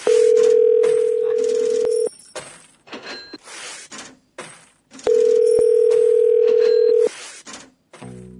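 Ringback tone of an outgoing telephone call: two long, steady, even tones, each lasting about two seconds, separated by a pause of roughly three seconds that holds faint background noise.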